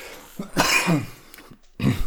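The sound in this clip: Coughing and throat clearing from someone who swallowed the wrong way: a few harsh, raspy bursts, one longer and strained with a rough voiced edge, then a shorter hack at the end.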